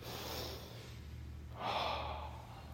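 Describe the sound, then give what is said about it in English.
A deep breath drawn in and let out: a soft, breathy first phase, then a louder, longer airy phase, with a low steady hum underneath. “take a deep breath. Do it right now with me.”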